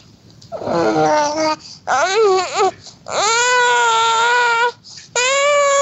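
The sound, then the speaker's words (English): A four-month-old baby babbling: four drawn-out, high, sing-song vocal bursts with short gaps between them, some rising and falling in pitch and edging toward a whine, loud and alone. “Here's a 4-month-old child babbling.”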